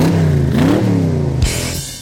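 A car engine revs loudly, its harmonic drone climbing in pitch before dropping abruptly, followed by a burst of hiss near the end.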